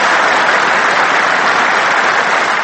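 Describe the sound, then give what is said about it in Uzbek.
Thunderous applause breaks into a speech by Uzbekistan's President Islam Karimov marking the national constitution. The dense, loud clapping stays steady and unbroken throughout. “O'zbekiston prezidenti Islom Karimovning 7-dekabr kuni mamlakat konstitutsiyasi munosabati bilan so'zlagan nutqi ana shunday guldiroz qarsaklar bilan bir necha bor bo'lib turildi.”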